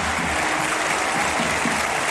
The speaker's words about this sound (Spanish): Lo mejor del partido, estos aplausos para Iñaki Williams.